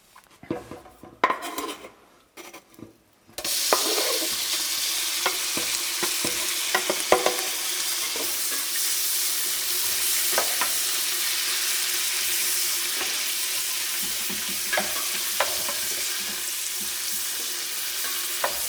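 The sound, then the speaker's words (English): Bacon frying in butter in a pan: a loud, steady sizzling hiss takes over after a few seconds of clattering pans and utensils, with occasional stirring clinks through the frying. “I'm going to fry the bacon in butter.”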